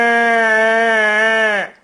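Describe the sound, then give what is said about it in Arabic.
A human voice imitating the bleat of a tired sheep, one loud, steady, nasal baa held for about a second and a half alone before cutting off sharply. “الخرفان انواع، في خروف بتاع الموظفين ده تعبان لما يقول باع”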